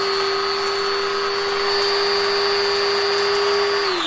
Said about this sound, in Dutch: Maar dat moet ik helemaal fijn maken. Dat doe ik vaak in een mixer.